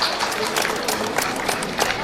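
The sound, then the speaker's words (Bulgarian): Applause greets first-grade schoolchildren at a school welcoming ceremony: a steady, even wash of many hands clapping at moderate loudness for about two seconds, with no talking over it. “Да ги приветстваме с аплодисменти и усмивки и да ги накараме да се почувстват част от голямото ни училищно семейство.”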